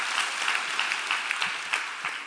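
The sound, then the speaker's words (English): Applause from a church audience clapping for a man, a dense, even patter of many claps that stays steady and fairly loud throughout. “Y'all give Mario a big hand clap while he does that.”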